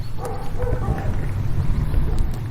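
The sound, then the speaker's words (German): A dog at the local electronics shop gives a few soft barks and yips over a steady low rumble, with the sounds blending into the background noise. “Das ist der Hund vom hiesigen Elektrohandel.”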